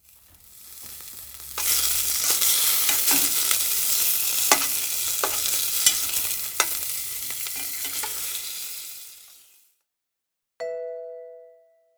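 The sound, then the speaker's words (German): Food fries in a pan with a steady hiss and crackle, broken by scattered sharp clicks of stirring. The sizzle swells in after a quieter start, fades out, and a short bright chime rings afterward. “Ich koche gern.”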